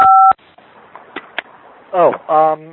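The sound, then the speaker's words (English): Touch-tone beep of a smartphone being dialed: one steady dual-pitch tone at the start, followed by faint clicks and a couple of short, louder voiced sounds. “He's dialing his smartphone.”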